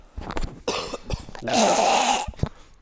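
Coughing: a few harsh bursts, with one longer, louder cough in the middle and shorter hacks around it.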